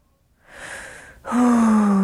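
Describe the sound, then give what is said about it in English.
A big deep breath taken during a chest-tapping relaxation exercise: a quiet drawn-in inhale, a short pause, then a louder, longer voiced exhale like a sigh. “Big deep breath.”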